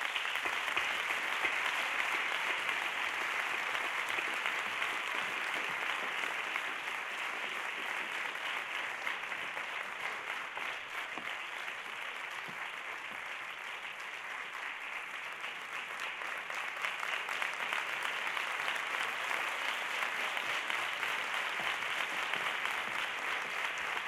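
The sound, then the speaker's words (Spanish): Prolonged audience applause at a theatre award ceremony for the Villa de Pinto playwriting contest. Steady, even clapping keeps going for over twenty seconds at a moderate, unchanging level. “Un aplauso, por favor.”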